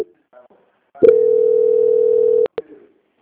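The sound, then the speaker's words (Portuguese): Telephone tone while a call is transferred: one steady, mid-pitched beep lasting about one and a half seconds, followed by two short clicks on the line, with faint brief noises before it. “só aguarde em linha que eu vou transferir aqui”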